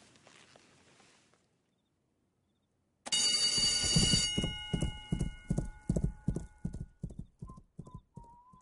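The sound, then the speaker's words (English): Horse hooves clip-clopping as the horse is worked out on a track: after a brief quiet stretch comes a long run of loud, evenly spaced hoof strikes in a steady walking rhythm. “When are you going to work that horse out? When he wakes up, I guess.”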